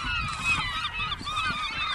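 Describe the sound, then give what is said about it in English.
A flock of gulls on a riverbank in Alaska, gathered for a large hooligan fish run, gives many overlapping honking, squawking cries in a continuous, busy chorus. “the gulls that were sitting on the shore dive into the water in a great big flock, snapping up hooligan.”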